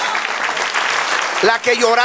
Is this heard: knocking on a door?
no